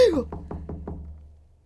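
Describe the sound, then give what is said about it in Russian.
Four quick, evenly spaced knocks on a door as the blacksmith calls on Christmas Eve during a snowstorm. A brief voiced sound comes just before, and the last knock fades into quiet. “Стучит кто-то. Отвори! Это кузнец.”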